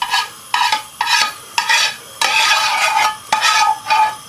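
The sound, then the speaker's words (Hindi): Spinach being stirred into a sizzling ghee tempering in a pan: a spoon scrapes in repeated rhythmic strokes over a steady frying hiss, fairly loud, with no voices. “अब यहाँ पर हम इसके अंदर इसको add करेंगे और इसको तड़का दे देंगे। तो ये पालक चलेगी बीच में”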